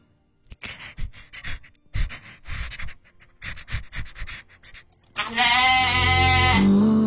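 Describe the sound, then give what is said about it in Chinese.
Rapid panting breaths from a person with the tongue stuck out, imitating a panting animal: many quick, uneven breathy bursts, then a loud, strained, bleating-like voiced sound. “人在舌头伸出来的时候不能急促呼吸。”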